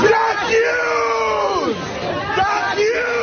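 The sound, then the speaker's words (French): Several dozen protesters shout outside the New York Times building in Manhattan. Loud overlapping yells and chanted cries from many voices rise and fall continuously. “Tandis que plusieurs dizaines de personnes manifestent à Manhattan au pied de l'immeuble du New York Times en hurlant « J'accuse » en français dans le texte.”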